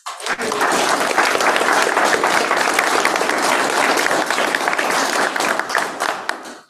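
Loud, steady audience applause at a district commission meeting honoring an employee of the month. Dense clapping holds at an even level for about seven seconds, then tapers off sharply at the end.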